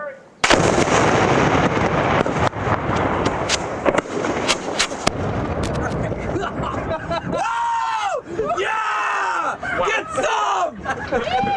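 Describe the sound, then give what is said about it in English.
Captured Iraqi weapons and bombs detonated in an open field near Baghdad: a loud boom opens a long, dense rumble scattered with sharp cracks, followed by wavering whining tones over continued roaring noise. “The giant blow-your-hair-back explosions set off in an open field often sent rocket-propelled grenade tips whizzing in every direction.”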